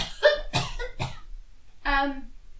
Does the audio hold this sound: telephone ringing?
no

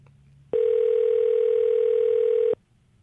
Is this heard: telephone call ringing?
yes

